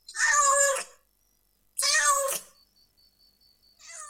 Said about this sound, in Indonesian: Kucing. Kucing. Cat. Cat. Kitun. Kitun.